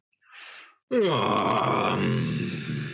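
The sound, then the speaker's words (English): A big stretch and a yawn: a soft breathy inhale, then a loud, drawn-out, voiced yawning groan that starts with a falling pitch and holds for about two seconds. “There's a big stretch and a yawn.”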